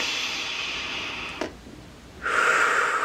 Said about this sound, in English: One more nice deep breath, filling your heart space.